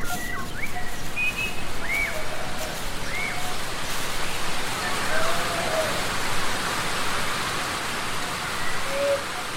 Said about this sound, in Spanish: la suerte quiso que una lluvia repentina se abatiera sobre el pueblo